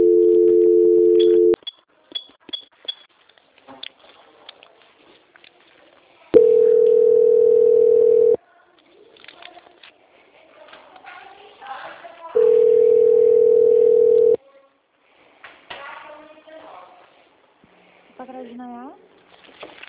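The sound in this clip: Telephone line tone plays during a call transfer as steady multi-tone bursts of about two seconds each, three in all, with quieter stretches between them holding faint voices and line noise.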